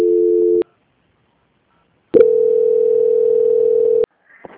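Telephone line tones play while a call to a bank is transferred: a short steady mid-pitched beep, a pause of silence, then a longer steady tone of about two seconds that cuts off abruptly.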